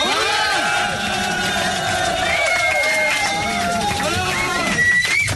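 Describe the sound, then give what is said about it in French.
An audience cheers and applauds a performer in a steady, dense roar of crowd noise, with shouts and voices layered on top throughout. “Peut-être mettre debout pour les saluer, peut-être pour la standing ovation quand même pour Alain de Brest.”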